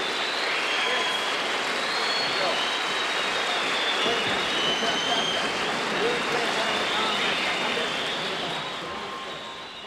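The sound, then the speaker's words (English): Thunderous applause and cheering from the audience at Konserthuset in Stockholm after a 1957 jazz concert, a dense, sustained roar of clapping that eases slightly at the end. “The audience at the Konserthuset in Stockholm, Sweden, April 29th of 1957, collectively losing their minds”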